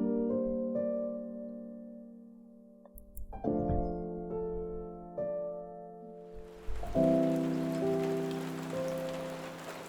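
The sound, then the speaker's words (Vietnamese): Heavy rain pouring down in strong wind, a soft steady hiss that comes in around the middle and continues to the end, over low, sustained musical notes; quiet overall. “Cơn mưa cuối cùng trút xuống, từng luồng gió mạnh lao vào nhà Lão Hậu. Nước mưa rào rào từ trên tầng không dội xuống”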